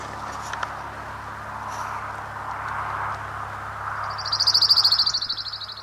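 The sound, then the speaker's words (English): A crown warbler sings one short, high-pitched, rapidly trilled phrase near the end, standing out over faint background hiss and a low hum. “Crown Warbler number 4.”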